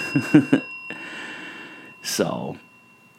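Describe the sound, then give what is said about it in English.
A bell being rung, its clear high overtones holding steady and ringing on through the whole clip, with breathy gasps and vocal sounds over it. “let me ring the bell”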